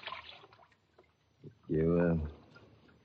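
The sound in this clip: A boat is paddled through water, a few soft liquid splashes and drips, with a man's voice speaking briefly in the middle.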